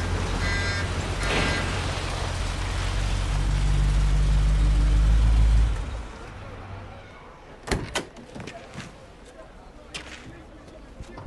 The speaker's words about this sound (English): drives the black car into the parking lot.